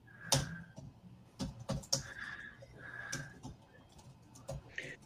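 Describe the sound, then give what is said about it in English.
Typing on a computer keyboard, with irregular bursts of sharp clicking keystrokes separated by short pauses, fairly soft and with no talking. “All right. Let me type that one in.”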